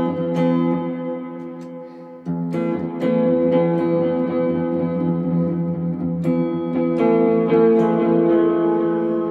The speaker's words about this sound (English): And then I have delays. You know, it sounds like this.